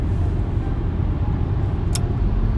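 A car drives on a highway lane shared with trucks, producing a steady, loud low rumble of engine and road noise that stays even throughout. No talking is heard.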